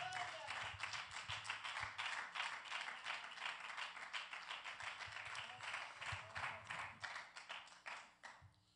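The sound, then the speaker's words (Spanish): Soft clapping from a church audience during a service, many quick claps in a loose steady rhythm that thin out and fade away at the end. “Si ese aplauso es para mí está bueno, si es para Dios tiene artritis.”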